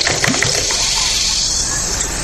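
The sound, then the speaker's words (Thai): Soda water poured into a glass over squeezed lime: a steady, bright fizzing hiss that runs throughout, with a few soft splashy bursts near the start and no talking. “มาบีบมะนาวเข้าไปนะฮะเติมโซดาหน่อย”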